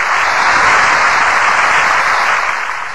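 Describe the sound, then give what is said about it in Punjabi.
Audience applause at a fair stage as a female singer arrives: steady, dense clapping from a crowd that holds loud throughout and tapers slightly at the end. “ਇੱਕ ਵਾਰੀ ਜ਼ੋਰਦਾਰ ਤਾੜੀਆਂ ਪੇਸ਼ ਕਰ ਜਾ ਰਿਹਾ”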